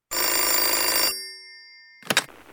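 A telephone bell rings in one sustained, bright burst of about a second, then its tone dies away. A short noise follows a moment later.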